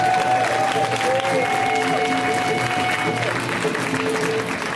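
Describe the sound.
Audience applause at a comedy show greets a comedian taking the stage. Dense, sustained clapping mixes with scattered whoops and voices and stays at a fairly steady level.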